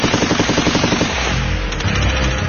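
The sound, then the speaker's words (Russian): A burst of automatic rifle fire in combat, a rapid run of sharp loud cracks, followed by a heavy, booming low thud and rumble from an underbarrel grenade launcher. “Снова шквал автоматной стрельбы, потом гулко подствольный гранатомет.”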